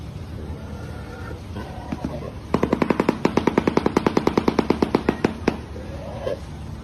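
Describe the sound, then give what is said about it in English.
A shoebill clatters its bill in a rapid, even run of many loud, sharp knocks lasting about three seconds, set against a low background hum. “Oh, yeah. Now we got the shoe bill noise.”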